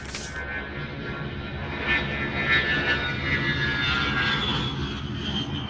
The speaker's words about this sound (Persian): صبح زود ما رو با یه هواپیمای C-130 ارتش به یزد منتقل کردم.